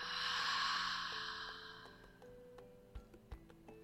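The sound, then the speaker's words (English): A slow, deep breath during a guided meditation, a broad airy swell that fades away over about two seconds, with soft sustained tones underneath and a few faint taps toward the end. “So, taking another deep breath in and out.”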